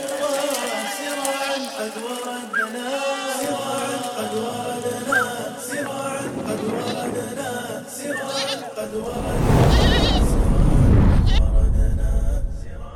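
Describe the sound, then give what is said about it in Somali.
Sheep and goats bleat repeatedly at a zakat livestock distribution. Their wavering calls sit among voices and steady tonal sound, and a louder, noisier stretch comes near the end. “mashruucan kubcinta xoolaha waa qayb ka mid ah sakada xoolaha nool ee laga qaybiyay wilaayadka Islaamiga sanadka 1446 Hijriga”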